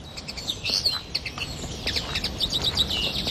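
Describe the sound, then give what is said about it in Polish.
Resident birds singing in early spring in Poland: many high, quick chirps and tweets overlap continuously over a steady hiss, with no voices. “W Polsce wiosna dopiero się zaczęła, ale już można usłyszeć ptaki osiadłe, które nie odlatują na zimę do innych krajów.”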